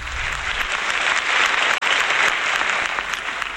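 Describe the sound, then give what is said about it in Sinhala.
Steady, dense audience applause welcoming a veteran singer to the stage, loud and continuous from start to end with one very brief cut in the middle. “ප්‍රවීණ ගායන ශිල්පී විශාරද එඩ්වඩ් චයිකොඩි ෂූරින්ට වේදිකාවට අපි සියලු දෙනාම හොඳ අත්පොසම් ප්‍රසාදයක් එකතු කරමු.”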